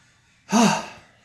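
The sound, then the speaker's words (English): A single voiced hiccup, a sharp gasping catch of breath that swells quickly and then fades over about half a second, heard on its own. “Why am I hiccuping? Seriously.”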